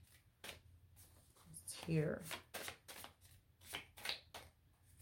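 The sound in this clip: Tarot cards are handled and shuffled during a reading. Soft riffles and slaps of the cards come in short clusters, with a louder flurry near the middle, under a person speaking.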